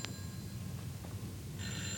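A telephone rings persistently in a flat, faint and harmonic, with one short ring burst at the start and the ringing resuming near the end over a low background hum; no one speaks.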